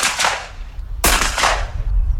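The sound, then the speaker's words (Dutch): Shotgun blasts at a clay pigeon shooting championship with more than a hundred shooters firing at orange clay discs, two loud sharp reports about a second apart, each with a rumbling decaying tail. “Meer dan 100 schutters probeerden zoveel mogelijk oranje schijfjes uit de lucht te schieten.”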